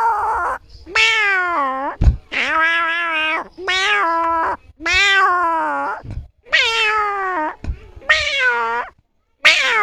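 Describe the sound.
A person imitates a cat's meow, giving many drawn-out, high, wavering meows in a row with short gaps between them. The meows are loud and clear.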